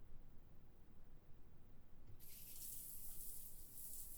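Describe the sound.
Tap water runs while someone's hair is being washed. Near silence gives way partway through to a steady, soft rushing hiss that continues to the end.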